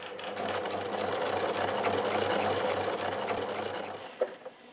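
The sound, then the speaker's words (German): A sewing machine stitches an apron onto a waistband for a Wiesn outfit, running in a steady, rapid mechanical whir with a low rhythmic hum. The motor stops near the end, followed by a couple of sharp clicks. “Also es sind zwei Schritte die Schürze an den Bund nähen und dann den Bund mit dem Band zusammen verstürzen.”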